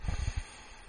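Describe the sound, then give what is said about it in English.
A faint, brief deep inhale taken during a guided meditation breathing exercise, an airy hiss lasting about a second, with a few soft low thumps at the start. “And another deep breath in.”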